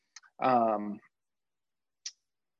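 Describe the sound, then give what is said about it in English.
Short, sharp clicks of a computer mouse clicking through presentation slides: a couple near the start, a brief voiced sound, then a pause before one more crisp click. “So I want to introduce you to, I have to click through all this.”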